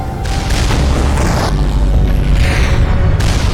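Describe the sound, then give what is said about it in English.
Explosions boom in a video game as three defense turrets shoot down a dropship, a loud continuous rumble broken by several heavier bursts. “So we got three defense turrets all shooting the dropship. Finally gets blown up and goes away.”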